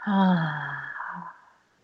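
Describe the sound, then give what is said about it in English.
A deep breath in and out during a guided relaxation exercise, the exhale carried by a soft voiced sigh that swells briefly and then fades over about a second, heard alone. “So big breath in and out.”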